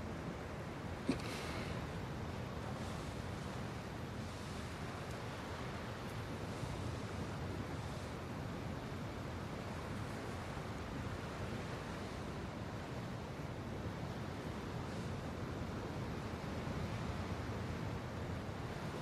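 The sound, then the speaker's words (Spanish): Steady breeze with waves washing onto shore, a soft, constant rush of surf and wind that stays even and faint for about nineteen seconds, with no voices. “Esta brisa es perfecta. Sí, lo es. A veces por donde vivimos da la misma brisa.”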